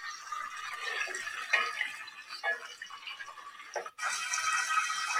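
Liquid oil being poured onto butter while making Erzurum-style halva: faint, steady trickling with small drips and light ticks, a short break near the end, then the flow resumes.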